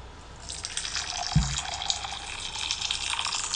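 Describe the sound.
Cold water pouring in a hot-or-cold guessing game makes a faint, steady splashing hiss. A brief low thump comes partway through.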